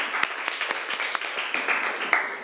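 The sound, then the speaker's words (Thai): Students in a class applaud themselves, a small group clapping loosely and irregularly at a modest level, with separate claps standing out from the patter. “นักเรียนเก่งมากปรบมือให้ตัวเองหน่อย”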